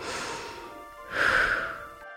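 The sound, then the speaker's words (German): One deep breath, a soft airy inhale followed by a stronger, noisier exhale that fades out. No voices are heard. “Dann schließe einmal deine Augen. Atme einmal tief ein und wieder aus.”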